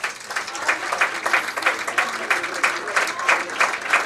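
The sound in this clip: Spectators at a football match applaud a player leaving the pitch. The clapping is moderately loud and pulses in a regular, steady rhythm.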